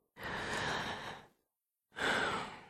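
Two deep breaths drawn by a patient with a heavy cold during a doctor's chest examination: two long, breathy rushes of air separated by a short silence, the second slightly stronger, with no talk over them.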